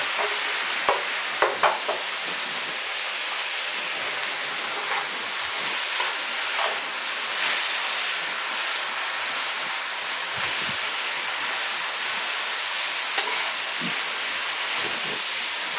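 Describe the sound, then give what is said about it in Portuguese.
Broccoli stir-frying in a pan with soy sauce, a continuous bright sizzle broken by many light scrapes and clicks as the food is stirred, steady and without talk. “Lembrando que já tem o shoyu. Coloco o brócolis por último.”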